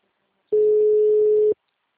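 A telephone ringing tone sounds once while calling someone: a single steady, mid-pitched beep about one second long that starts and stops abruptly, alone between stretches of silence.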